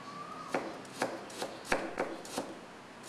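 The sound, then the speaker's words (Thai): A knife thinly slices an ingredient in a quick run of crisp cuts with a fairly even rhythm over a quiet background. “แล้วก็หั่นนะฮะแล้วเราก็ซอยบางๆนะครับ”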